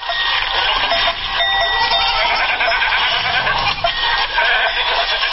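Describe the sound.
Livestock call out at a Turkmen summer pasture in a dense, continuous din of bleating goats and sheep, with overlapping cries and no pause throughout.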